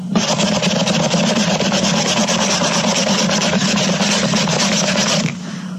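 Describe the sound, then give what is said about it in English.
A clean rag rubbing a bottle gives a continuous, even scraping hiss for about five seconds, then stops abruptly. “Now I've got my new bottle in one hand and a clean rag in my other hand. I'm going to rub it until it looks new again.”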